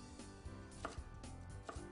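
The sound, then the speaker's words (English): A knife chops through red onion for a salad, cutting it into thin strips with a few crisp, separate thuds against the board at an uneven pace, with no talk. “So we're going to cut some strings of onion.”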